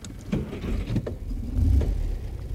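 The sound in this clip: Car driving off: a low engine rumble that swells briefly in the middle as the vehicle pulls away, with a few light clicks and knocks over the steady drone.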